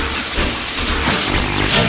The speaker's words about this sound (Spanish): Cargamos el carbón. Motores a su máxima potencia. Y el tren comienza a avanzar.